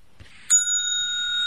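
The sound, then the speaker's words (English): A bell rung once for practice gives one bright, sharp ding that rings on in a clear, steady tone, fading only slightly over the following second. “Let's practice ringing the bell.”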